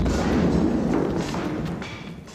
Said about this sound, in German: Lauf zu den Bäumen rüber, falls noch mehr Explosionen kommen.